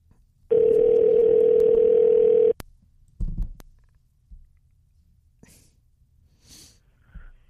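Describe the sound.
Steady telephone dial tone while placing a call, a loud unbroken hum lasting about two seconds that cuts off abruptly, followed by a few faint scattered noises.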